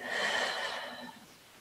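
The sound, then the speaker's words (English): A deep breath released during a guided grounding exercise: one soft, airy rush of air that slowly fades, quiet and alone. “Another deep breath in and releasing.”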